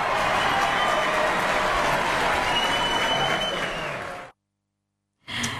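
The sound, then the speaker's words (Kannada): Congratulatory applause for listeners who sent correct quiz answers: dense, loud, steady clapping that runs for about four seconds, then stops abruptly and is followed by a short silence. “ನಿಮ್ಮೆಲ್ಲರಿಗೂ ಕೂಡ ಅಭಿನಂದನೆಯ ಚಪ್ಪಾಳೆ.”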